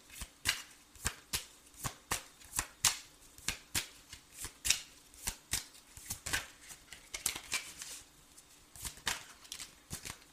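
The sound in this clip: Playing cards being shuffled and dealt: many crisp, sharp snaps and flicks in an uneven rhythm, fairly loud and clear, with no talking over them.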